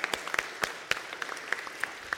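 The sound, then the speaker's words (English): A church audience applauding the women and men who organised the annual fall festival, many crisp hand claps in an uneven patter at moderate loudness, with no voices over them. “How about a big round of applause for all of them?”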